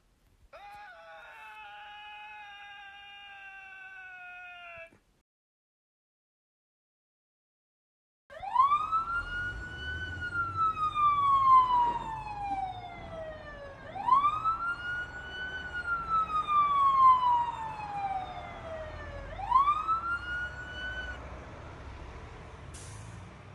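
A police car siren wails during a getaway chase. A steady flat tone plays first, then a short silence, then three loud siren cycles, each sweeping up sharply and gliding slowly back down.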